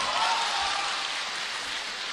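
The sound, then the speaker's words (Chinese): Audience applause at a stand-up comedy show, a dense, steady wash of clapping that holds at an even level for the whole stretch with no clear voices. “感谢各位的掌声鼓励”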